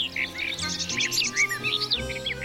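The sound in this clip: Sparrows chirp in a park, a busy stream of many short, high twittering notes that overlap at moderate loudness, with no voices.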